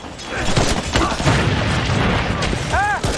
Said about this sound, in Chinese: 快炸！快炸了！快扔了！